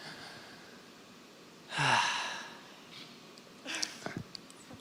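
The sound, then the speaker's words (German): A deep breath in: one loud, airy inhale lasting under a second, followed a moment later by a few softer breathy sounds over quiet background. “Bleib einfach mal stehen, sei mal ruhig und atme einfach mal ganz tief ein.”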